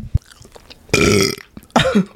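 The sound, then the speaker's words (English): A loud, drawn-out burp rumbles out in one long burst, and a second, shorter belch follows soon after, with a faint click just before. “that sounded like a cartoon burp”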